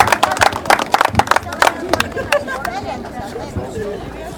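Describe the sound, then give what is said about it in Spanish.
A crowd claps to welcome a sub-mayor at a street paving ceremony in El Alto, with many brisk, uneven claps over the first two seconds that thin out into crowd chatter and talking voices. “Vamos a recibir con un fuerte aplauso a la señora Irene Condori Villa, subalcaldesa del Distrito Municipal número 8.”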